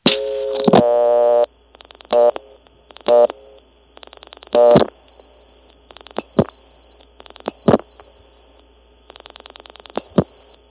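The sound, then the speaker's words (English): Number being dialed on an old step-by-step telephone exchange: quick bursts of rapid relay clicking mixed with short buzzing tone fragments and sharp separate clacks, all loud and alone. “You could also dial 86 instead of 26 to get into Marshfield, because 8 and 2 do the same thing here.”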